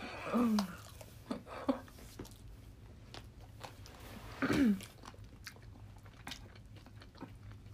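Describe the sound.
Quiet sounds of a person eating: soft bites, crunches and small wet clicks of chewing come at irregular intervals. A few louder bites stand out early and again in the middle.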